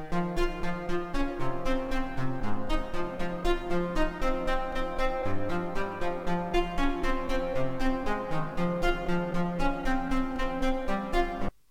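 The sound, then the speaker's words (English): A synth loop audio sample plays in music production software, a steady, repeating pulse of bright synth notes over shifting low tones, running continuously for about twelve seconds before cutting off abruptly, with no talk. “It's a synth loop and it sounds a bit like this.”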